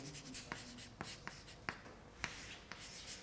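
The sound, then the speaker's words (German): Pen scratching quietly as notes are written, a soft continuous scrape broken by several sharp little taps and strokes at irregular intervals. “Ich werde gleich noch ein paar Punkte über die Diskussion dazu schreiben.”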